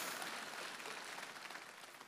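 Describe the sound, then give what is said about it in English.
Audience applause during a church sermon: a steady, soft wash of clapping that holds for about two seconds and fades slightly toward the end, with no voices over it. “you can give that a round of applause”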